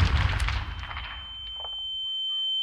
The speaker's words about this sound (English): this wasn't just any blast, guys. Nope, it made your ears ring. You can actually feel the vibrations hard in your chest. And what can do all this, you ask? A cherry bomb.